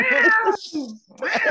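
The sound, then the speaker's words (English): Cat meowing: a few loud, drawn-out, wavering meows with short gaps between them and no other sound. “that cat said, meow, meow, meow”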